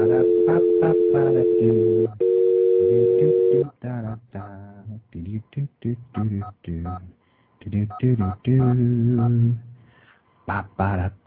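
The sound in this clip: Touch-tone telephone dialing: two long, steady electronic tones, followed by a stretch of people talking.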